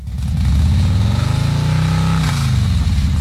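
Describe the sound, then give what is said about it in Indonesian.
Motorbike engine speeding off: a loud, continuous throaty drone with a steady throb, revving hard throughout. “Wah, tinggal 5 menit absen kerja. Harus ngebut nih.”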